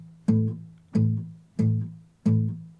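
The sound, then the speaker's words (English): A muted, steady bass line is played on an acoustic guitar in 12-bar blues style. Four evenly spaced, palm-muted low notes each give a dull thump that fades quickly. “And the main thing is this wonderful, muted, steady bass. And it sounds like this.”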